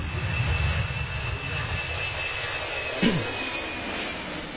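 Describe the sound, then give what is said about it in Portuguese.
An airplane passes overhead, its engine a steady, broad roar with heavy low rumble and a thin high whine on top. The noise stays fairly constant in loudness throughout, with no voices. “E tem avião passando aqui, hein?”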